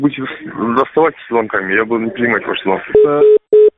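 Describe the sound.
A telephone tone sounds after the receiver is hung up. A voice speaks first, then two steady beeps at one fixed pitch follow, the first longer than the second, with a short gap between.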